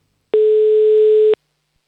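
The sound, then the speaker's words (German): A telephone line tone after a number is dialled: a single loud, steady electronic beep lasting about one second, alone and with no talk around it. “Die Greta rufen wir jetzt einmal ganz geschwind an. So, Nummer wählen wir. Und dann hoffen wir auch, dass die Greta abhebt.”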